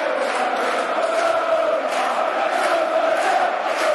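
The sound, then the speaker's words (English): Crowd cheering at a Millwall football match: a loud, sustained roar of many voices that swells and holds steady throughout, with no single voice standing out. “And you can hear where the crowd allocate the credit for this recovery.”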